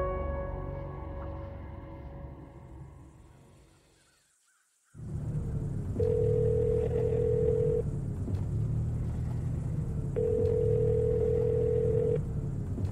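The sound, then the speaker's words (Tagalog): Ringback of a phone call placed by someone lost on the way to Pampanga: two long ring tones, evenly spaced a few seconds apart, over a steady low rumble that follows a fading, noisy opening. “Pasado alas 5 nang tinawagan ko na si Celine para ipaalam ang nangyari.”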